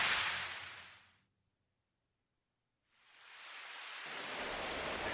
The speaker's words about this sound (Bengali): বাইরে তখন আকাশ ভেঙে বৃষ্টি পড়ছিল।